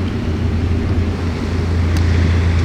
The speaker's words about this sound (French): Je pense que c'est plus du bateau. Hein. C'est énorme.